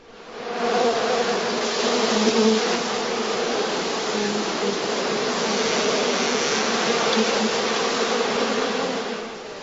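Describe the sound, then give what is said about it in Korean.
Many bees buzz around a hive in a dense, continuous drone. The hum stays loud and steady from start to end. No voices are heard. “벌들이 윙윙대는 벌집 속에 손을 넣어서 죽음을 무릅쓰고 꿀을 따는 그런 일이요.”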